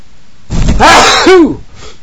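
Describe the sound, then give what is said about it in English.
A single loud human sneeze, a rough, breathy burst lasting about a second, heard on its own without talk. “Sneeze.”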